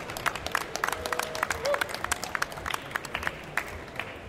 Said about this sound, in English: please welcome to the stage the president of the Wakeboarding Hall of Fame. Give it up for Mike Weddington.